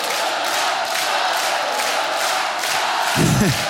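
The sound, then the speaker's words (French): A crowd cheers and makes noise for a dance school at an evening show, a loud, continuous roar of many voices that stays steady throughout. “Et un maximum de bruit pour l'école Dance Attitude qui est venue en renfort avec nous ce soir. Merci. Merci du fond du cœur. Du bruit pour elles, du bruit pour eux.”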